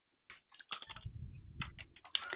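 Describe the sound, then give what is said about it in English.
Quiet keystrokes on a computer keyboard, several soft clicks in uneven bursts with a low muffled rumble between them. “Let me type this.”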